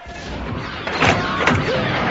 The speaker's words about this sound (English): Open the hatch!